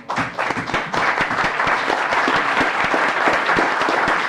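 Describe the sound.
Applause in the Alaska legislative chamber greets guests: many hands clap together and quickly build into a dense, steady roar of claps that holds evenly for several seconds, with no voices over it.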